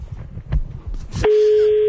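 A steady, single-pitched ringback tone of an outgoing telephone call begins partway through after some muffled noise and holds level to the end.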